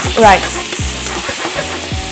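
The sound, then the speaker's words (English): Chicken sizzles as it fries in a pan with garlic, giving a steady, loud hiss broken by a few low knocks from stirring. “I'll just add the chicken to the pan.”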